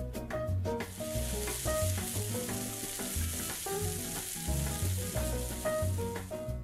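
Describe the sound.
Oil sizzling in a heated frying pan in a kitchen, a steady high hiss running continuously beneath rhythmic background music.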